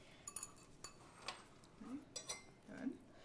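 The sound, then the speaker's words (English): A spatula scrapes around the sides of a bowl of pancake batter, making faint scraping sounds and light clinks that recur several times across a quiet background. “I'm going to give you a spatula. Okay. So that you can take the spatula and clean okay. the sides of the bowl okay. so that we don't end up with any lumps.”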